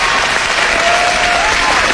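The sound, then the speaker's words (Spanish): Ladies and gentlemen in a live audience give a sustained round of applause, a thick, even wash of many hands clapping at constant loudness with no break. “Reitero, este aplauso es para ustedes.”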